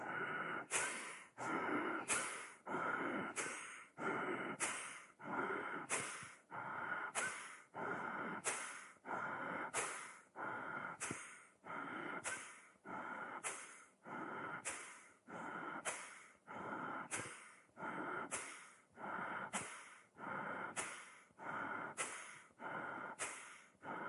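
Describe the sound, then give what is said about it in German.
Rapid, forceful yoga power breathing done while holding a pose with the chest raised and the head on the floor. Many sharp, even breath bursts repeat in a steady fast rhythm for the whole clip, with no talk. “Und jetzt Power Breath, während du die Stellung ruhig hältst.”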